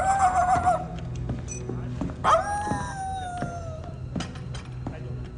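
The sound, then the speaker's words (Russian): A senior lieutenant imitates a dog with his voice, giving whining, howl-like calls that slide downward in pitch over a steady, noisy background. “Старлей уходит, голосом имитируя собаку.”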